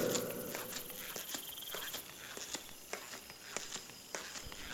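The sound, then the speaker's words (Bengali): Footsteps walking along a rain-wet, deserted street, a steady run of faint, light steps over a continuous soft hiss. “তারা আবার হাঁটতে থাকে বৃষ্টি ভেজা নির্জন রাস্তা দিয়ে”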